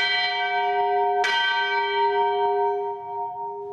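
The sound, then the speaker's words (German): A church bell hanging in a tower hall and rung on feast days sounds with a rich, humming tone that slowly decays, and a fresh strike comes partway through. “Und seit der Zeit hängt sie jetzt in der Turmhalle der Liebfrauenkirche und wird bei großen Festtagen, bei feierlichen Einzügen geläutet.”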